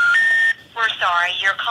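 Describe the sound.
Telephone tones on a call to a number that cannot be completed, a brief steady electronic tone stepping up in pitch, followed by a recorded voice speaking.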